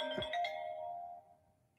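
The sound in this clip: A phone ringtone for an incoming call sounds as a single bright chime-like tone that rings out clearly and then slowly fades, heard alone.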